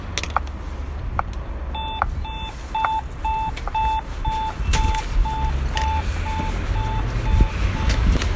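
A pedestrian traffic light signal on Danziger Straße beeps in a steady, evenly spaced series of short high tones, many repeats over constant street noise.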